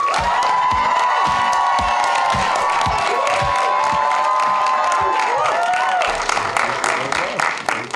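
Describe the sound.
Audience applause and cheering welcoming a guest on stage at a Chapman University event: loud, dense clapping sustained throughout, with whoops and shouts rising over it, thinning slightly in the last couple of seconds.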